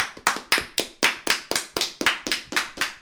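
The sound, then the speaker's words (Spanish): Applause for the runner-up team of a Mexican football final: steady, crisp hand claps at about four per second, evenly spaced and fairly loud, with no voices. “Bueno, pues un aplauso para el subcampeón Pachuca, el mejor equipo del torneo.”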